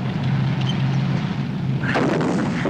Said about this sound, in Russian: По правому! Немецкий танк стреляет.